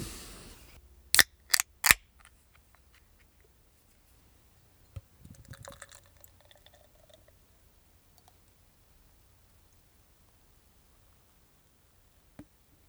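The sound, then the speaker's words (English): A 12-ounce can of Toast Craft Lager being opened and poured: three sharp clicks in quick succession, then a short fizzy hiss, then near silence broken by one faint late click. “It's a can, 12 ounces. It's 5% alcohol by volume. I'm looking at Zeus, Crystal, and Hallertau hops. And I'm going to crack this guy open and see what we think.”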